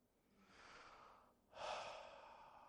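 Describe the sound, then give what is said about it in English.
A slow, deep breath taken in unison during a sermon: two long, soft, airy phases, the second louder and fuller before it gradually fades. “please join me in taking a deep breath.”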